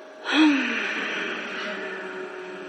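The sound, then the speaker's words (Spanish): A sharp intake of breath, then a long, sustained exhale carrying a faint low hum, done as a relaxation breathing exercise. The airy exhale holds steady and soft until the end. “Entonces van a tomar aire y van a exhalar haciendo como un hum.”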